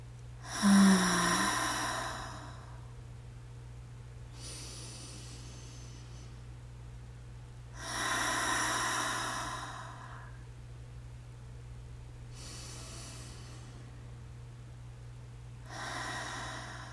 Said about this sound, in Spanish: Ahora vamos a inhalar por la nariz y a exhalar por la boca, haciendo sutilmente este sonido.